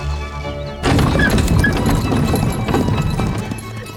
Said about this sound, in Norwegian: Vi setter oss eh, i en hestevogn med litt klassisk musikk på vei til storhet.